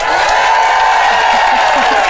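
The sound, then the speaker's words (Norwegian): Crowd cheering and clapping in a packed cellar in Bergen: loud, sustained applause with whoops and cheering voices rising above the dense clapping and holding at full strength throughout. “Bare lag skikkelig lyd nå, publikum, så vi hører hvor mange dere”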